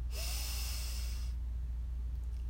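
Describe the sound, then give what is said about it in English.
A single deep breath drawn in, a steady airy hiss lasting just over a second, followed by quiet low hum with no exhale clearly audible. “We take a breath in, breathe in,”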